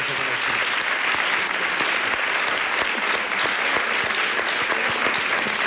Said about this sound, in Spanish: Así que le vamos a dar un aplauso a Mercedes